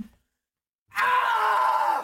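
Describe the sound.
A person screams once into a corner: a loud, raw, sustained cry lasting about a second, bursting out abruptly after silence.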